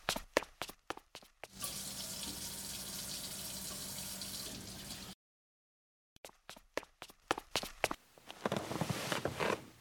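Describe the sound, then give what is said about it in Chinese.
Water runs steadily from a tap for a few seconds as someone washes their hands before reading a book, with sharp clicks and taps before and after it. “阅读这本书前要把手洗干净的。 哦。 欣欣瞅瞅贝贝妈，贝贝妈微笑着点点头。 那我去洗手。”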